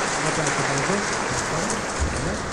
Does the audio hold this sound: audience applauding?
yes